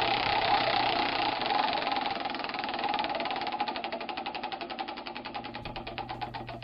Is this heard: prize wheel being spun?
yes